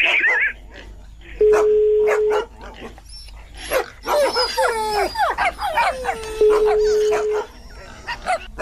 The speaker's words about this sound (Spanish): ¿Hoy están los perros y los puercos? ¿Vale? Se oyen muchos puercos y muchos perros.